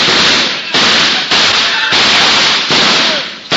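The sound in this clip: Gunshots in a radio drama: six loud, harsh blasts in quick succession, each with a rough, roaring tail that cuts off sharply just before the next shot.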